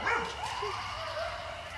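A dog in a North Carolina backyard barks and yips, giving a few short, high calls with whining, tonal edges that carry clearly over a steady background hiss.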